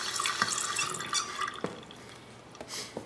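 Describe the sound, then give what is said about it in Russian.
Water runs into a sink as a woman fills it, a continuous splashing flow broken by a few sharper drips and splashes. “Женщина набирает воду в раковине.”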